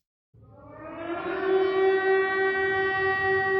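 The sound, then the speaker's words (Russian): Civil defense air raid sirens wail ahead of an expected missile strike on a city. A harmonic, steady-pitched tone swells in loudness after its onset and then holds a sustained, droning wail. “Бой сирен с интервалом в 20-30 секунд прерывался голосом диктора.”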